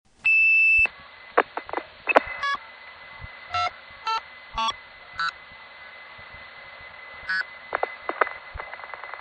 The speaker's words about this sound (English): Give them an odd condition and they'll put you through while superimposing a busy signal or reorder.